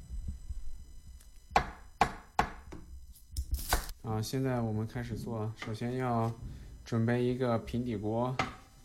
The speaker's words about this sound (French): Hachez l'oignon, ciselez les feuilles de coriandre.